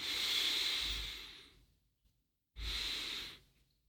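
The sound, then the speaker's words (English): Two long, deep exhaling breaths are heard alone as soft, breathy hisses. The first lasts about a second and a half and slowly fades. After a short silence, a second, shorter exhale follows. “Feeling your body and long, deep out breath. Deep, long, releasing everything.”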